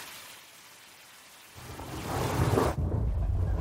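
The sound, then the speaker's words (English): Thunder and rain sound effect played in a studio: steady rain hiss that swells into a deep, rolling thunder rumble in the second half and grows louder. No voices. “No, just the thunder. Don't play that. Play the thunder.”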